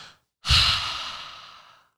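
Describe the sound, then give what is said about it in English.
A deep breath: a brief soft inhale, then a long, breathy exhale that starts strong and gradually fades away, with no talking. “So again, take a big deep breath.”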